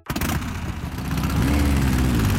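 A vintage motorcycle engine revs loudly at a classic motorcycle exhibition. It gives a rough, throaty roar that climbs and then holds at a steady, higher drone on its own.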